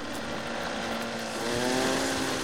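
Motorboat engine droning as the boat speeds away from a dock, a dense steady roar with a low humming tone, holding level and swelling slightly louder in the second half.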